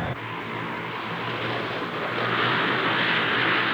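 A civilian airplane flies overhead as a broad, steady engine roar that swells gradually louder over a few seconds, with no voices over it.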